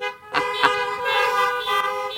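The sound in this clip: Car horns honked by an audience in cars during a religious gathering: overlapping sustained toots at several pitches, with a few sharper blasts standing out.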